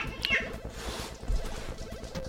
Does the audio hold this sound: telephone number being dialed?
no